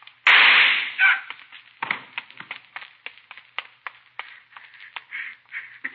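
A gunshot in a radio crime drama: one loud, sharp blast that rings briefly, followed by many smaller sharp cracks and clicks of varying loudness.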